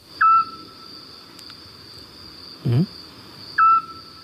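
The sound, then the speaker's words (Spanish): A Scops owl calling at night: two short, pure whistled notes about three seconds apart, with a brief lower call in between, over a steady faint hiss. “Este sigue un autillo. Qué bonito, ¿eh? Qué bonito canta, además, ¿no?”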